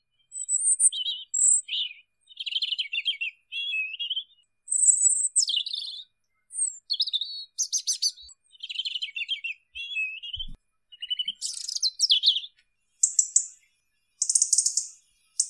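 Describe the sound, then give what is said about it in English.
A European robin sings its territorial song, many short, high, varied warbling phrases separated by brief pauses. The notes are bright, clear and fairly loud, and no voices are heard. “It's a cheerful little tune, isn't it? This earned them some love. They're also a favourite of the British because the robin is a year-round resident.”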